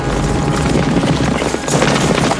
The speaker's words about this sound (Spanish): Abajo, Lod y sus hombres montan a caballo.